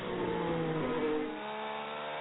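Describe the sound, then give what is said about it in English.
Race car engines on a sports car road course in Lexington, Ohio, on a cool August day as drivers work heat into their tires. A loud, steady engine drone with several overlapping tones that shift in pitch eases slightly in level partway through. “Cars once again trying to get some temp in those tires on what is a cool August Friday here in Lexington, Ohio, at Mid-Ohio Sports Car Course”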